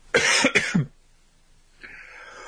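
Three harsh coughs and throat clearing from someone with something caught in the throat, loud and close together, then quiet.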